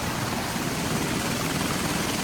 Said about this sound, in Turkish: Askerler helikopterle güverteye indirildi.